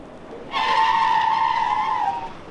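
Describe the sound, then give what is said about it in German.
A single sustained tire squeal from a car braking hard during brake tests. The loud, high-pitched screech lasts about a second and a half over faint background noise, then cuts off. “Bremsversuche. Immer wieder Bremsversuche. Sie sind die Grundlage für die beste, das heißt wirksamste Abstimmung der Bremsanlagen.”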